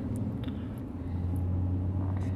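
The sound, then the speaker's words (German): Steady engine and road rumble from a car cruising gently in fourth gear on a country road, a continuous low drone with no sharp changes and no talk. “Ja, wir fahren jetzt ja auch sehr gemütlich. Wir wollen es ja nicht übertreiben, weil wir können ja hier auf der Landstraße keine Rennen machen. Ja. Jetzt im vierten, oder? Jetzt im vierten, genau.”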